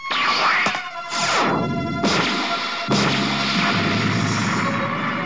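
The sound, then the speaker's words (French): A powerful bomb explodes in an animated action film: a sequence of loud crashing, booming blasts with sweeping, roaring tails, staying loud throughout with no voices. “le géant barbu lance vers Sangohan une bombe d'une puissance terrible”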